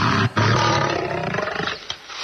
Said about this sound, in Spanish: Tengo una grabación de un león del anfiteatro romano.